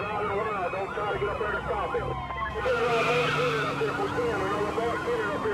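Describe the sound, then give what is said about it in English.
Car engine roaring as an 18-year-old suspect races from police down a highway shoulder at 120 miles an hour in Columbia, South Carolina. The engine pitch climbs, and tire noise runs steadily beneath it. “The suspect races down the shoulder at 120 miles an hour.”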